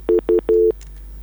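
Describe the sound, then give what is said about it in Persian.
Phone line tones as a call cuts off: two short beeps and then a longer one, a steady mid-pitched electronic tone heard alone before silence. “متاسفانه تماس ما با برادر ما قطع شد، نمیفهم که مشکل چی بوده.”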